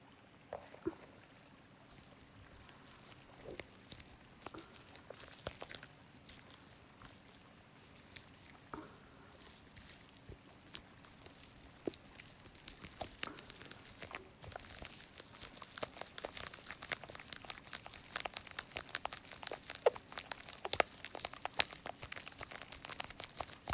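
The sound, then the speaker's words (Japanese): Gentle washing of the earlobes and around the neck: soft, continuous crinkly rustling with light patter, quiet throughout and growing busier and more textured in the second half, with no talk. “耳たぶから首周りをゆるゆる洗っていきましょう。”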